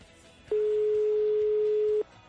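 A telephone call tone sounds while a number is dialed. It is a single steady mid-pitched beep lasting about a second and a half, clear over a faint background hiss.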